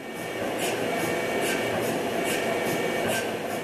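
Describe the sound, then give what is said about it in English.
A quieter GE Healthcare MRI machine runs with a soft, steady whirring hum. A light, regular ticking pulse repeats a few times per second, and the sound stays low and even throughout. “One leading MRI manufacturer, Waukesha-based GE Healthcare, has now developed basically a less noisy MRI machine, one that sounds like this.”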